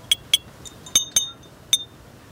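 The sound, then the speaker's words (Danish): A teaspoon tapping glass bottles, a handful of sharp, bright clinks in an uneven rhythm, each leaving a brief ringing tone, with the pitch changing between bottles. “jeg har fundet en form for teske, som jeg ligesom kan slå på de her flasker med. I kan lige få en lille smagsprøve.”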